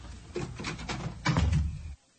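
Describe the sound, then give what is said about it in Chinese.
A door being closed: a few scraping, knocking sounds lead into a heavier low thud that stops abruptly, leaving near silence. “哎呀，关上门，我好听你说话。”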